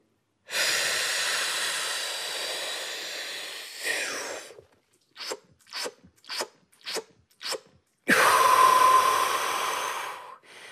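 A trained freediver's packing breath: a long, loud rushing breath, then five short, sharp gulps of air in a quick, even rhythm, then another long, forceful rush of breath to fill the lungs.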